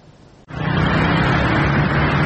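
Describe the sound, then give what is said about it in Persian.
Road traffic on a Sunday street in Tehran: a dense, loud, steady roar of vehicles that cuts in abruptly after a brief quieter moment and holds evenly to the end. “ترافیک روز یکشنبه خیابان‌های تهران، این هم از شلوغی مترو.”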